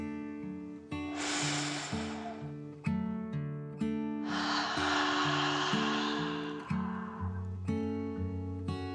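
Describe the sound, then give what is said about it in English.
A deep, slow calming breath is taken in and let out, a short airy inhale followed by a longer, hissing exhale. Soft music with low sustained notes plays beneath it throughout. “Rolly took another dragon breath in and out.”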